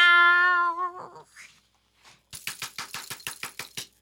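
A cat's meow sounds first as a clear, steady, held tone lasting about a second. After a short quiet gap comes a quick run of sharp claps.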